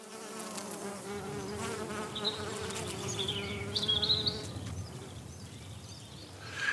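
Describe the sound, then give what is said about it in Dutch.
Honeybees buzz at a beekeeper's hive in Gelderop, a dense, steady droning hum that holds evenly from start to finish with no voices. “Je hebt dus eh, de, de koningin, hè, de baas van alles en eh, de werkbijen. En die heb je in, met allerlei soorten taken. Poetsvolk, je hebt eh, wachters,”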